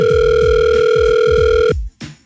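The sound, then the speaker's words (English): A telephone call is placed, with a steady electronic ringing tone over a fast low pulsing that plays for under two seconds before cutting off abruptly, followed by a brief short sound. “let me go ahead and pick up the phone, give her a call, because you know I do call my winners and got to check it with them.”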